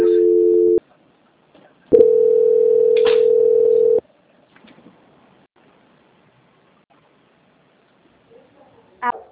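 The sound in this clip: Telephone tones while a call is transferred: a short steady tone, a pause, then a longer steady tone lasting about two seconds. Quiet follows, with a few faint clicks and a brief noise at the end.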